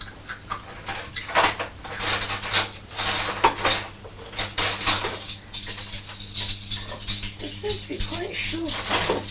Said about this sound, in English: Oh no, there they are. The spoons that are much larger than a teaspoon, they're smaller than a dessert spoon.